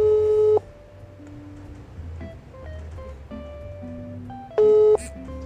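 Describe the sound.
A telephone ringback tone on a call not yet answered: two bursts of steady, buzzing tone separated by a long quiet gap, with faint background sounds between them.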